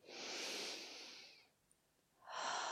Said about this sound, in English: First, take a deep breath in through your nose